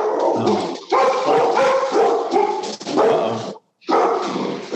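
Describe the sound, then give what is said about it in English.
A dog barking frantically at a FedEx delivery man in front of the house: many loud, rapid barks and yips with growling edges, broken by one brief pause before the barking resumes. “we got a FedEx guy in front of the house. The dog's going nuts.”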